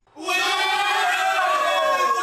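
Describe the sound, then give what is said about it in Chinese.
Crowd cheering at a local football match, with chants in the Yi minority language blended in. A loud, sustained wall of voices swells up within the first moment and then holds steady at full strength. “欢呼声响起，夹杂在其中的凹凸的加油声是当地的少数民族语言。”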